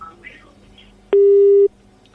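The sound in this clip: A telephone busy signal sounds after a caller's line drops: one steady, mid-pitched electronic tone lasting about half a second, loud and clean, following faint background murmur.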